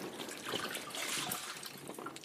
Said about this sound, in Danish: Må jeg lige vaske dig i ansigtet? Ja, det var også træls. Men man skal også vaske i ansigtet.